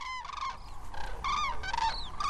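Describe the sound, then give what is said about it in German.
Common cranes call as they take off at sunrise, a series of loud, ringing, trumpet-like calls in quick succession, some overlapping, over a faint low rumble. “Die ersten Kraniche haben sich schon formiert. Zu zweit, zu dritt, zu viert erheben sie sich und fliegen majestätisch über uns hinweg. Erst ist es nur vereinzelt zu hören,”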